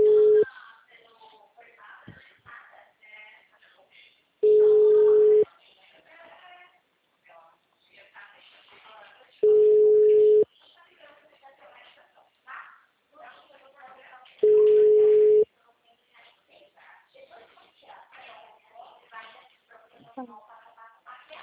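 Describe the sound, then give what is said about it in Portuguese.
Telephone tones while a call is placed: four long, steady, mid-pitched beeps at regular intervals, each about a second long. People talk in the gaps between the beeps. “Fazer uma ligação, galera.”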